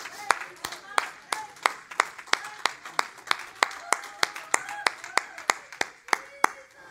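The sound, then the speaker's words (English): Hands clapping by a single person during a church talk: many sharp, bright claps in a steady, even rhythm, close to three per second, continuing throughout. “I just got to clap a minute to calm down.”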